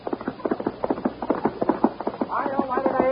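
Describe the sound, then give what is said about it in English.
Thundering horse hoofbeats as a sound effect: a rapid, even run of hollow clops for most of the stretch, with a voice coming in over them near the end. “From out of the spacious west, blazing a trail swiftly through mountain, plain, and stream, comes the thundering hoofbeats of the great horse, Silverware.”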